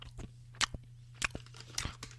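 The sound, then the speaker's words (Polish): Nuts are eaten and chewed, with a few crisp, sharp crunches and bites separated by quieter pauses, over a low steady hum. “To wy też lubicie słuchać, jak ja jem. O, mam tu orzeszki.”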